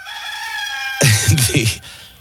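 Rooster crowing sound effect: a drawn-out, harmonic crow followed by louder, raspy bursts that trail off.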